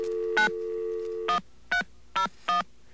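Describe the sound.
Touch-tone keypad dialing on a telephone to call information: a steady dial tone carries the first beep, then it cuts off and four more short, evenly spaced beeps follow, loud and alone.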